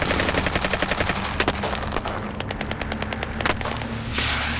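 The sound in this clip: Gunfire in a firefight against enemy fighters: many sharp shots in rapid, rattling bursts like automatic weapons, with a few heavier cracks standing out above the dense volley.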